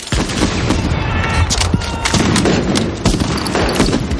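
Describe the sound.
Gunfire and explosions in a World War II bridge battle scene from the film Saving Private Ryan, loud and dense with rapid shots and booming bursts throughout.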